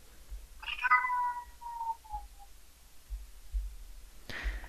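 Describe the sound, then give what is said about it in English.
A cat meows once, a clear drawn-out call that slides downward in pitch before fading, followed by quiet background with a brief noise at the end. “I was about to say, where's the Pranfunkle's cat?”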